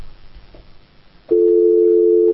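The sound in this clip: A telephone line tone is heard after the receiver is picked up. Faint low rumble comes first, then a loud, steady, unbroken tone starts abruptly and holds for about a second.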